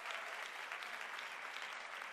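Applause welcomes a woman guest called up to the front, a faint but dense and continuous wash of many hands clapping without a break.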